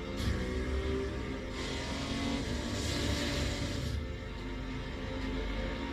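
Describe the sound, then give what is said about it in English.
Racing cars of the 1957 Ferrari era in Italy roar through a continuous, fairly faint wash of engine noise with a few surges as they accelerate, and no voices are heard. “Showing a lot of racing.”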